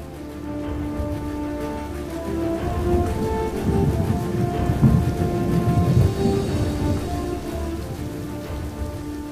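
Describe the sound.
A heavy thunderstorm roars continuously, with dense, steady rain hissing over low, rolling thunder rumbles that swell and fade. The sound stays constant throughout, with no voices.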